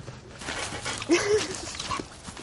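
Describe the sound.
A dog vocalizes in short, whiny yipping bursts, one higher whimper-like cry standing out in the middle, set against a steady, noisy background.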